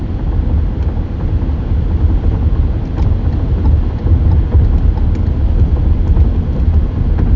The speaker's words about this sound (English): So I'm driving to work right now.